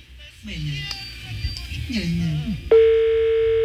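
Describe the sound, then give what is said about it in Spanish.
A telephone line tone sounds while another number is being dialed. A steady, buzzy electronic tone begins abruptly after a stretch of people talking and holds evenly to the end. “Marcando otro número.”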